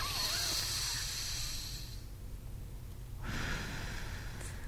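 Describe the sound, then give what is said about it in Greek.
Breath drawn in through one nostril while a finger presses the other closed makes a steady, airy nasal rush. A quieter stretch separates two longer passages of breathing over a faint constant background tone. “με ένα δάχτυλο τώρα, με το ένα μας χέρι, κλείνουμε το ένα ρουθούνι και αναπνέουμε με το άλλο. Κάνουμε μία εισπνοή.”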